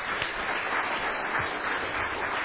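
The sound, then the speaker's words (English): Audience applause for volunteer teachers of a church children's and youth ministry: a steady, dense wash of many hands clapping that keeps an even loudness from start to finish, with no talk over it. “Can you give them an applause?”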